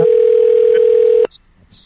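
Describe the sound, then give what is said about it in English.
A steady, unbroken telephone dial tone hums at one even pitch while a call is dialed, then cuts off abruptly partway through, leaving only faint, scattered sounds. “Anyway, let's give them a call.”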